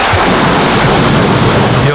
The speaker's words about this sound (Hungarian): Ráküldted a villámodat? Ahogy kell, nesze. Ne pazarold a villámomat.